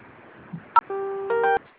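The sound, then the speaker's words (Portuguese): Telephone keypad tones from pressing zero during an automated call: a short beep, then a steady electronic tone that changes partway through, lasting under a second. “Para concluir e receber mais detalhes, aperte o zero.”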